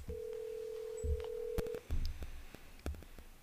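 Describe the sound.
A phone call being placed, with a steady low telephone tone held for under two seconds, then a few sharp clicks and short beeps, all faint and with no voices.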